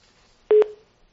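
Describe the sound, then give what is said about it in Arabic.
A telephone tone as a call-in line drops: a single brief, steady, mid-pitched beep that fades out, alone against near silence. “انقطع الخط.”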